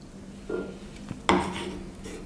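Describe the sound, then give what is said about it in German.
Soft clatter of a utensil against a small bowl as dim sum filling is scooped in: a few light knocks and a click, then a louder scraping rub that fades. “Packe ich jetzt hier ins Schälchen.”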